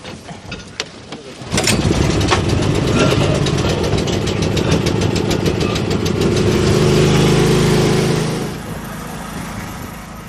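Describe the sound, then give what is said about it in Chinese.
A portable generator being pull-started for lake field sampling: a few short knocks, then the engine catches and runs loud and steady with a rough, rumbling drone before its level drops near the end. “好，发电机得拉起来。”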